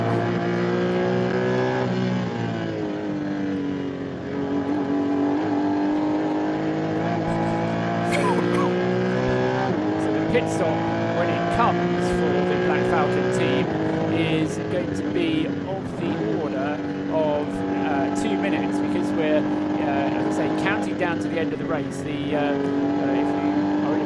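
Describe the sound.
A race car roars around the Nürburgring during the VLN 2018 ADAC Ruhr-Pokal endurance race. The engine note is loud and sustained, and its pitch climbs and drops repeatedly through gear changes, with brief tire-and-track noise mixed in.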